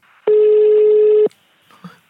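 Telephone ring tone heard during a call: one loud, steady buzzing tone lasting about a second, followed by faint quiet noises on the line.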